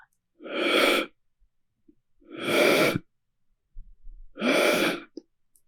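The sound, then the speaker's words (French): Three loud, forceful breaths in a pranayama yogic breathing exercise, each a rushing, airy burst lasting about a second, separated by short quiet pauses, with no talk. “Inspire. Expire.”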